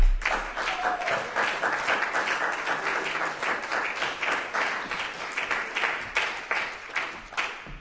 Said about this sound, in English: Ladies and gentlemen, give him a hand.